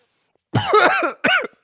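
Coughing after inhaling cigar smoke: a harsh, rasping cough followed by a second, shorter cough.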